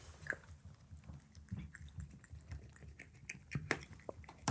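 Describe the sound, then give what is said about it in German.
Cats eat from their food bowls with faint, wet chewing and crunching. Many small irregular clicks and smacks repeat throughout, with no voices. “drei Katzen und ein Kater. Das ist dein Napf und das ist dein Napf. So. Schmeckt's?”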